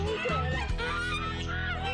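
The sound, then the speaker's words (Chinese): A big, fat white farm goose honks several times in loud, nasal, brassy calls, one quickly after another. “鹅都长大了，越长越大。 我就没打算吃它。 它有灵性的，不好吃。”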